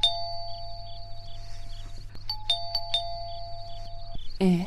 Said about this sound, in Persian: زنگ میزنن. کی هسته ای وقت شب؟